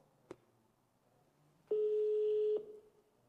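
A phone call rings unanswered: a faint click comes first, then after a pause a single steady ringback tone sounds for just under a second before cutting off, with no voices.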